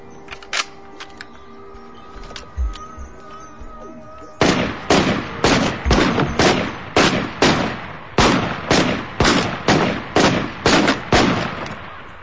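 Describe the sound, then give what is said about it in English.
Gunfire: a few scattered shots, then a long rapid run of loud, sharp cracks at a steady, even pace, with a faint tonal hum underneath the early part. “Nice shooting.”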